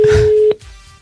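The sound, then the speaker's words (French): Telephone tone as a number is dialed to call a company, a loud steady electronic tone cut short by a click, leaving a fainter line hum. “Nous appelons donc une société, un professionnel qui a touché l'argent du spa, mais qui n'a pas livré le spa.”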